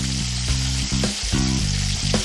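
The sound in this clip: Steady sizzling and crackling from a pan where a dough pocket filled with beaten egg seasoned with soy sauce is frying after being turned over, a continuous hiss at even loudness.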